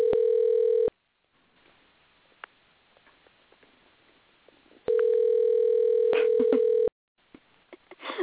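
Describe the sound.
A telephone dial tone sounds while a number is entered for a call. Two stretches of steady mid-pitched tone are separated by a quieter gap with faint clicks. A few brief dialing beeps follow near the end.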